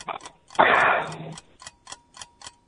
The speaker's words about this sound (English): Oh, there's the timer.